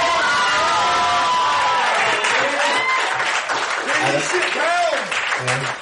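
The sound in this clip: A crowd welcoming a band on stage cheers and claps, with loud shouts and whoops rising over continuous applause throughout.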